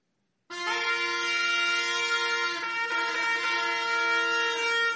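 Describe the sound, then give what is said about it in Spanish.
A trumpet call signals a camp to break and set out on the march. It is one long, steady, brassy note that enters suddenly and is held for several seconds, with a slight shift partway through. “La trompeta era el instrumento para esto. Dice 10:2 al final: y para poner en marcha los campamentos.”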